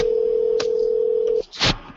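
A telephone dial tone sounds as a steady, unbroken low hum while a prank phone call is being set up. It holds for about a second and a half, then cuts off, and a short noisy burst follows.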